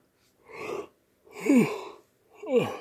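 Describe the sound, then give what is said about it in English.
Three breathy, drawn-out yawns in the early morning, each rising as a soft voiced swell and then trailing off with a sliding, falling tone, separated by short silences. “Sorry for all the damn yawns.”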